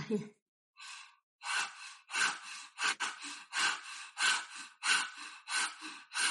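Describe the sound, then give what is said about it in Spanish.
Open-mouthed panting with the tongue stuck out, done as a kundalini yoga breathing exercise: many quick, breathy huffs in a steady rhythm, each a short rasping burst with brief gaps, heard alone with no talk. “Entonces vas a hacer eso y vas a respirar por la boca como si quisieras jadear.”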